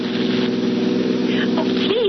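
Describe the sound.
A rented car is driven fast, its engine giving off a steady, continuous drone that holds an even pitch throughout.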